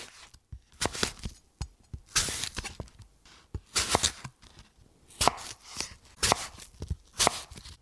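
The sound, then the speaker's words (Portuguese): A knife chops courgettes into small pieces, making many irregular cutting knocks mixed with brief scraping strokes from sharpening. The sounds are fairly quiet and come in uneven bursts. “o homem afia as facas para cortar courgettes ao detalhe em pequenos pedaços.”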